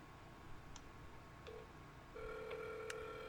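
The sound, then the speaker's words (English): Telephone tones as a burner phone is dialed: a short beep, then a steady, sustained tone, all faint and with no talk. “I'm calling now. I got my burner. They say they hide the number.”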